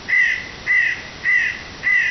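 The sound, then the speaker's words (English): Four harsh caws from a hooded crow, a medium-sized corvid with a grey hood and chest, come in a steady, evenly spaced rhythm, each call rasping and loud with short pauses between. “This bird was another member of the Corvus family, the hooded crow.”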